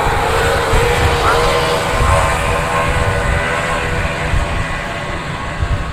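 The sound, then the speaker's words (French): The loud, continuous engine roar of nine outboard motorboats at the start of a live race. It forms a dense, steady drone with a slight rumble that holds at a strong level throughout. “ce que vous venez d'entendre, c'était le départ d'une course de hors-bord en direct.”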